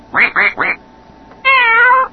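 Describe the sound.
A video game's cat sound plays as three short, harmonic meows in quick succession, followed after a pause by a longer, steady buzzy tone.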